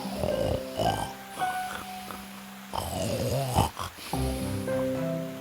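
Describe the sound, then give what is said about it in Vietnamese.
Loud snoring of a wolf asleep under a tree in an animated fairy tale, deep, rasping and growly, with a few long snores rising and falling in a slow rhythm. “Sau một lúc thì thấy con sói đang ngủ dưới gốc cây. Nó ngáy to đến nỗi những cành cây cũng phải rung lắc.”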